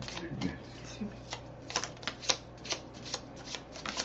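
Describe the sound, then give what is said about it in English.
Tarot cards are shuffled by hand, with cards popping out of the deck: many quick, crisp snapping riffles in an uneven rhythm. “Got cards popping out left and right.”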